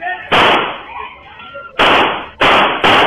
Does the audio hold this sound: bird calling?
no